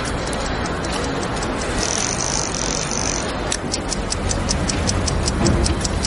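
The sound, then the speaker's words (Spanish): Steady clock ticking in a watchmaker's workshop as a screw is set into a gear; many even, sharp ticks become clear over a continuous hiss in the second half. “Carlos trabaja en el taller de relojería junto al dueño. Con una lupa en su ojo, coloca un tornillo en un engranaje.”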